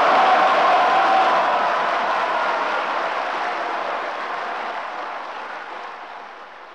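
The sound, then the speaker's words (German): Cheering from the coalition benches in the German Bundestag after a failed vote: a dense, broad crowd roar that starts loud and fades steadily over several seconds. “Jubel bei der Koalition, Niedergeschlagenheit bei der Opposition.”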